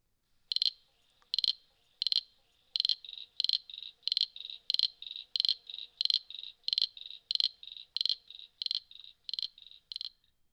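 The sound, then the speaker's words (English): Common froglet calling: many short, high-pitched chirping calls repeated in a fast, even rhythm, loud and clear with no other sounds between them. “Common Froglet.”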